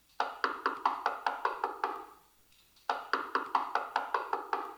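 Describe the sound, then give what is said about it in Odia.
Rapid knocking on a door comes in two quick bursts of many raps separated by a short pause, fairly quiet, with no voices. “ସେଦିନ କବାଟରେ ଠକ୍ ଠକ୍ ଶବ୍ଦ ଶୁଣିଲି।”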